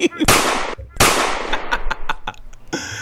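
Two loud, sharp gunshot bangs from a soundboard effect of a .22 ring out about a second apart, each trailing into a crackling decay. A scatter of smaller pops and clicks follows.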